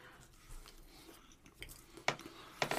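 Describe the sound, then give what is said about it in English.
Chewing an untoasted chocolate pudding flavored Peeps marshmallow, faint soft squishy mouth sounds with a few sharper clicks toward the end. “I think we do untoasted first. Untoasted first. All right, here we go. This is the chocolate pudding.”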